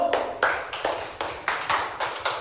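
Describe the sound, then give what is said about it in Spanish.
Hands clapping in a steady, even rhythm, many sharp, crisp claps at a moderate level with a short ring after each, keeping a regular beat throughout with no voices. “Un aplauso.”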